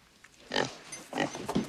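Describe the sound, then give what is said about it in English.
A pig on a farm grunts a few times in short, low, rough bursts with brief pauses between them. The grunts stand alone at moderate loudness. “She's a fine pig is what she is.”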